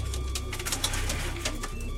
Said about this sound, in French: On a la passion des pigeons avec ma fille Arina